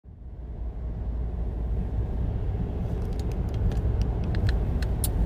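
A car drives on the ride home with a steady, even low rumble of engine and road noise throughout. Faint scattered high clicks appear in the second half.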